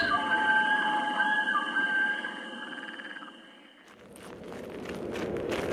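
Footsteps on soft mountain ground, a quick run of many light steps in the last two seconds, after a steady, humming tonal background that fades out around the midpoint.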